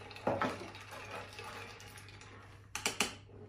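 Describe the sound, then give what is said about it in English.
A spoon stirring a cucumber drink in a glass, giving quick light clinks and taps in two short bursts, one near the start and one near the end, over a faint steady hum with quiet swishing between. “Let's give that a little stir.”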